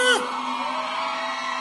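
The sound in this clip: A short loud shout on a live radio show opens the moment, followed by a steady tonal ring that lingers beneath it.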